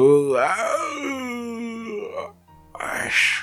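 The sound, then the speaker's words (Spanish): A long, voiced yawn: a moaning tone that swoops and then slowly sinks in pitch as it stretches out. It fades briefly, then ends with a loud, breathy exhale. “Es un bostezo con cariño.”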